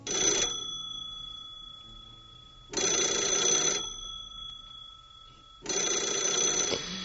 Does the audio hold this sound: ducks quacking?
no

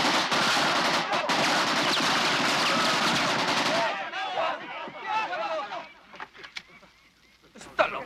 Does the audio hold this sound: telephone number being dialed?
no

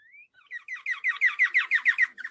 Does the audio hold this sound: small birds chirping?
yes

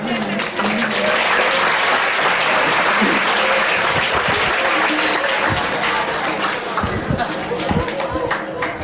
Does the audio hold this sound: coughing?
no

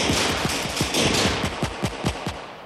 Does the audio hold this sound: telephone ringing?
no

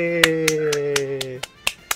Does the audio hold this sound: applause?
yes

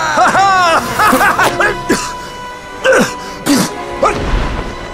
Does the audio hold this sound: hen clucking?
no

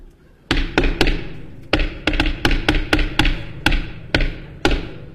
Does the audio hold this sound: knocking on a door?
yes

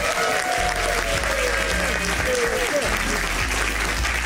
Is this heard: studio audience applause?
yes

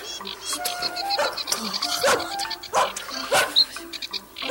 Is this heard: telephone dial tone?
no

